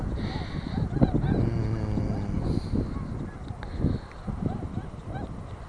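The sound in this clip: Swans call with a few short, nasal honks over a steady background hiss, the calls fairly faint and spaced irregularly.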